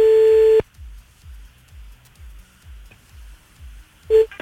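Telephone ringback tone on an outgoing call: a loud steady tone cuts off, soft rhythmic low thumps pulse through the quiet gap, then the tone starts again briefly near the end.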